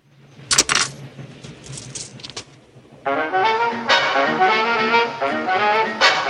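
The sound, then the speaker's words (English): Cassette tape inserted into a player: a few sharp plastic clicks and clatters, followed by steady music starting to play. “He inserts a cassette tape.”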